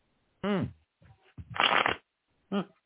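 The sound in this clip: Tarot cards are shuffled in a short, dense riffling burst lasting about half a second. Brief voice sounds come before and after it.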